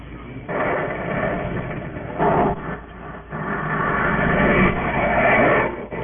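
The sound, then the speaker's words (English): A spaceship engine during deceleration and touchdown gives a continuous low, muffled rumble with a few swelling surges and brief dips, with no voices over it. “Stand by for deceleration. Coming in for touchdown. Secure your seat straps.”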